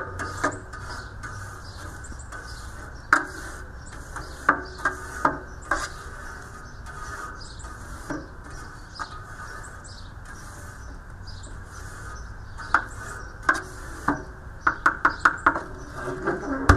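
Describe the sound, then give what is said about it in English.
A wire brush scrubs a barbecue grill grate beside a smoker: a steady rasping scrape runs throughout, punctuated by sharp metallic clicks that come more often toward the end. “So, there's the smoker and the brush. Clean off the grill a little bit.”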